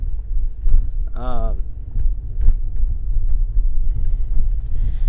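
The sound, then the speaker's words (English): Low, steady rumble inside a car being driven, continuous through the whole stretch, with a brief voiced sound partway in. “Someone's got me driving all over the goddamn place.”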